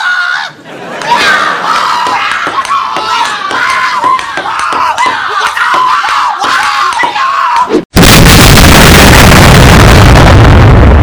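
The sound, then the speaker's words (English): A grenade explosion bursts out as a sudden, loud, harsh roar of noise that lasts a few seconds. Several seconds of loud shouting and screaming voices come before it. “Why did you chuck that grenade at us for?”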